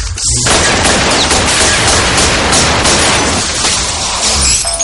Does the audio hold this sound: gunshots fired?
yes

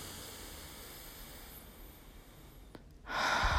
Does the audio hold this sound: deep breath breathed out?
yes

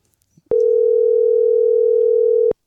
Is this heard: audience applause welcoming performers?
no

